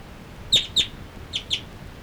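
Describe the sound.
Birds calling as they move from perch to perch: four short, high chirps in two pairs, each pair quick and crisp, over faint background noise.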